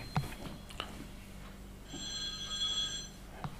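A telephone rings in a single electronic burst of steady, high-pitched tones, faint over a quiet background with no talk.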